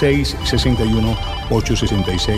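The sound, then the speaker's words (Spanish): A telephone rings with an incoming call on a call-in radio show, a bright, repeating electronic ringing pattern heard under a voice speaking. “Tengo por acá una nueva llamada.”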